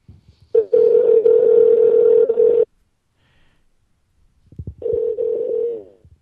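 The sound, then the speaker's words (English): A telephone call being placed: two long, steady electronic tones with a silent gap between them, loud and clear with no voices. “All right, I'm dialing. Here we go.”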